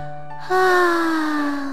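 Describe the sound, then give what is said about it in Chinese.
A big yawn voiced by the narrator for the mother rabbit in a bedtime story: one long, breathy, drawn-out vocal sound with a slowly falling pitch, played alone. “兔妈妈打了个大大的哈欠”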